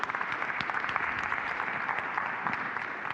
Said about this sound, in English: So a little round of applause for the shepherding team.